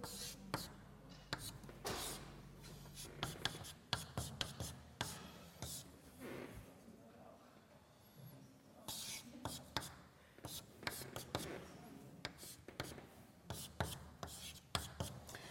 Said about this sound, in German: Ich schreibe das noch einmal an die Tafel.